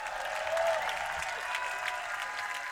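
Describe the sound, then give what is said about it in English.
Audience applause welcoming bluegrass musicians onto a stage in North Carolina: sustained, fairly faint clapping that holds steady throughout, with a light crowd murmur. “So please give a warm welcome to Sierra Hall, Justin Moses.”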